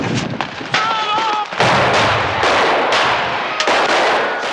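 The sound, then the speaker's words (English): Gunshots fired into a man slumped over a car hood in an alley: a few sharp, loud cracks in quick succession over a dense, noisy background. “They fire into his body, now lumped over the hood.”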